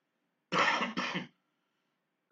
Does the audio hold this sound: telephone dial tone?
no